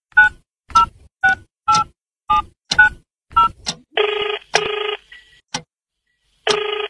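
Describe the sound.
Telephone keypad beeps as a number is dialled for a late-night call: a quick string of short, even tones, followed by longer buzzing ring bursts with a gap between them.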